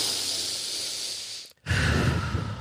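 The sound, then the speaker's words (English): A huge, deep breath: a long, airy rush of breath, a brief moment of silence, then a louder and fuller rush of air that continues to the end, with no talking. “we take that second to take this huge, deep breath”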